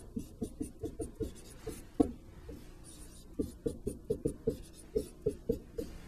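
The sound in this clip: Hand-writing of a math equation: many quick, rhythmic pen strokes tapping and scratching in steady runs, with a short pause partway through before the strokes resume.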